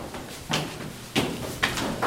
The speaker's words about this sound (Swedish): Hon öppnar dörren. Och in går jag.